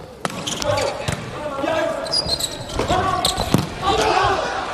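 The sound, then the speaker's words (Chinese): A volleyball is served and then played, giving a few sharp ball hits spaced through the rally over steady crowd noise, with people talking throughout. “还是阿明来发球”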